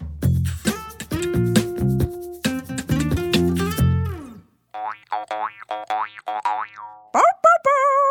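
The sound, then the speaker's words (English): Springy cartoon boings as a character bounces on a bed and settles in, with many bright, bouncy tones and bright musical notes at the start, then a run of separate boings. “It was Blue bouncing and getting cozy in her bed.”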